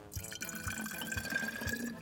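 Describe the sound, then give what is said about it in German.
Water is poured into a small bottle to fill it about halfway for a baking-soda experiment, giving a quiet, steady trickle with soft dripping pulses and a faint ringing tone. “Als allererstes kommt in unsere kleine Flasche hier vielleicht mal so eine gewisse Menge Wasser. Magst du mal so die Hälfte voll machen mit Wasser?”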